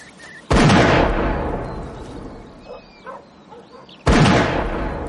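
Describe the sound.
Two loud shotgun blasts ring out while out shooting game, a few seconds apart, each a sharp crack with a long rolling decay. Faint chirping calls are heard in the gap between them.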